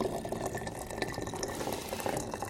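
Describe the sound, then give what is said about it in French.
Water is poured into a herbal decoction being prepared, a steady, faint, continuous trickle and splash with no pauses and no talk. “je vais mettre l'eau dans la décoction que je vous prépare.”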